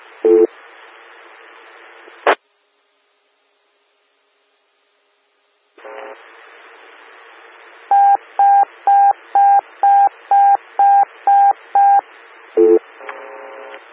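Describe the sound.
Pager alert tones come over a two-way radio on a storm-watch weather net: hissy radio static, then silence, then more static and a quick run of evenly spaced, loud electronic beeps over the steady hiss.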